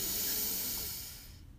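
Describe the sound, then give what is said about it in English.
A single deep breath, heard as a soft, airy hiss that is strongest at first and then fades away within a second or two, with no talking. “And our third and final breath together, breathe in”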